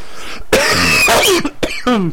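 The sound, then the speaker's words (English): A person coughs a few times in quick, harsh bursts, some with a raspy, voiced edge, separated by short pauses. “excuse me, I've been having a cough for whatever reason”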